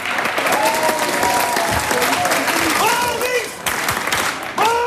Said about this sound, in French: Standing ovation et d'honneur, Maurice Goldman est remercié à sa juste valeur.